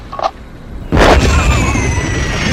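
Artillery shell exploding as a short round: a faint brief pop, then a sudden loud blast about a second in that turns into a heavy, sustained roaring rumble lasting to the end.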